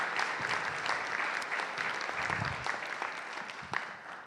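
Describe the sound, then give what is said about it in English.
Church audience applauds as two members are welcomed onto the stage. The clapping is steady and dense throughout, with a few low thumps mixed in. “we can give them a hand and welcome them up here.”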